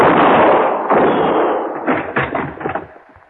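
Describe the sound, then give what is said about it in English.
Gunshots in a radio drama: a loud, muffled, dense crackling roar, then several sharper bangs before it fades away. “I can see in here, but you can't. No. Well, I can see the flash of your gun.”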